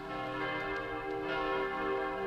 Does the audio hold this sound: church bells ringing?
yes